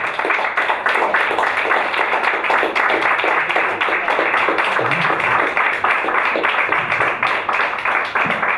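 Loud, sustained audience applause welcoming a guest onto a stage: dense, even clapping that holds steady throughout.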